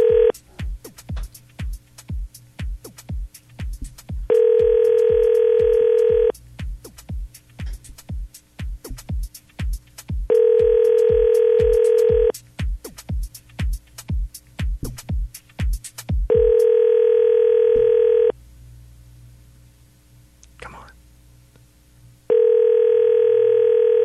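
A telephone dial tone on a phone line comes in several steady, even stretches. Between them are long runs of rapid, sharp clicks, and a quieter gap falls near the end.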